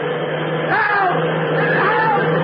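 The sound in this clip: Steady motor drone of a cross-country bus running: a continuous low hum and broad rumble that holds throughout, with brief voice sounds rising above it partway through.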